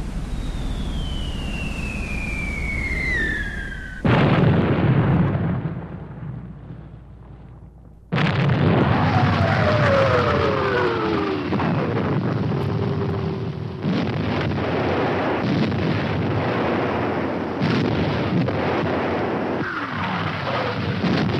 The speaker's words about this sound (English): And then the bombardment started.